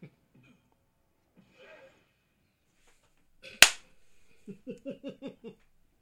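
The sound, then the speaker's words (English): A tank firing its cannon in a video game, one sharp, loud blast that decays quickly, followed by a short series of evenly spaced low thumps; faint scattered sounds come before the shot. “And shoot him with the tank.”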